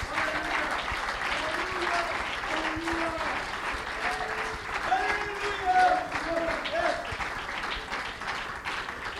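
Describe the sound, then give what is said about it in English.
A church audience claps their hands to the Lord. Sustained, even applause fills the whole stretch, with voices rising over the clapping. “Would you clap your hands one more time to the Lord?”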